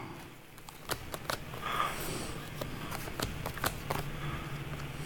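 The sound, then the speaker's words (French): Tarot cards are shuffled and drawn, giving many quick, crisp snaps and flicks in an irregular rhythm over steady background noise. “Bon, on le voit, hein, parce qu'il y a les cartes. Je vais essayer de tirer encore là.”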